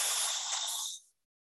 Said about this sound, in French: Inspirez avec la bouche.